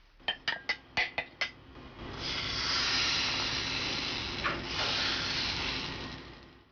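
Batter frying in a pot of hot oil as a spoon spreads each portion into a thin oval, three at a time. A quick run of sharp metallic clinks comes first, then a loud, steady sizzling hiss fills the rest.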